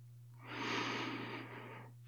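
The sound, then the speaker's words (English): A slow, calming exhale: one long, soft, breathy whoosh of air lasting about a second and a half, swelling gently and then tapering off, over a steady low hum. “I calm my body on the way home from work. And exhale.”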